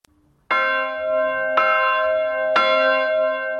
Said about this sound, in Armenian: Այսօր հայոց եկեղեցու զանգերը առավոտից ձայնում են աշխարհով մեկ։